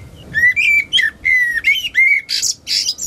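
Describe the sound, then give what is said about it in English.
A blackbird sings inside a chimney: a run of short, clear, fluted phrases with squeakier high notes mixed in. The phrases are fairly loud and steady, with brief gaps between them and no other sounds. “So I went over to the chimney, and I stuck my microphone up the chimney. Sounds like a blackbird.”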